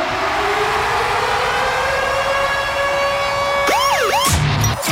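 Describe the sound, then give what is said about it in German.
Siren sound effect used as a radio station's concert-ticket alarm: a loud, steady harmonic tone that breaks into brief wailing up-and-down sweeps near the end. “wenn der Virgin Radio Konzertsummeralarm abgeht, dann gibt es Tickets für die besten Rockkonzerte von diesem Sommer”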